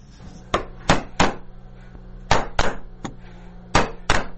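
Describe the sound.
A hammer drives a chisel into wood as a Nuristan craftsman carves Afghanistan's national emblem. The sharp, loud strikes come in irregular short groups with brief pauses between them.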